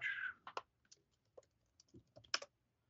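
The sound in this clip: Quiet keyboard typing and mouse clicks come from a computer while browsing the iTunes store, in scattered, irregular bursts of light taps separated by short pauses.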